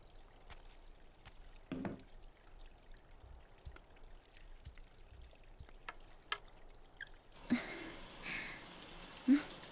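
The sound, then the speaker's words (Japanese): Hot water running during a bath, a faint steady hiss of flowing water that grows louder and fuller near the end, with a few soft knocks. “お湯は出るわね。”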